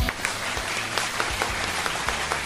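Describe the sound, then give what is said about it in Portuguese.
Steady, fairly loud applause from a studio audience, many hands clapping continuously with a few sharper individual claps standing out over the whole stretch. “Cadê os aplausos?”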